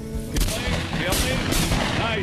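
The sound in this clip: A sharp, loud gunshot blast fired at a white turkey gobbler during a turkey hunt rings out over a noisy, rumbling background.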